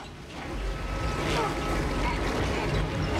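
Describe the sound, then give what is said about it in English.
Water gushes along a stone trough and falls onto an enormous wooden water wheel, making a loud, continuous rushing wash that swells in the first half-second and then holds steady. “water gushes along a stone trough. It falls onto an enormous wooden wheel, making it move, which in turn sets a series of cogs in motion.”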